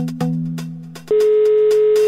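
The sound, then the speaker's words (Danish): Telephone ringing tone on a call to a company's phone number: a softer electronic tone fades away, then a loud, steady, unbroken tone holds to the end. “Og vi ringer til de første par numre på listen.”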